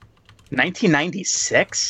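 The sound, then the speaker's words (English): Keyboard typing as someone types a search, heard as quick light clicks, mostly masked by a person talking over them. “I'm going to just type it in and look for it.”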